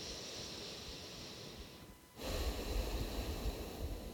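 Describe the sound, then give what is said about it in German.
Breathing in and out through the left nostril, a soft, airy hiss that dips briefly, then returns as a louder, rougher breath. “Nur links ein und ausatmen.”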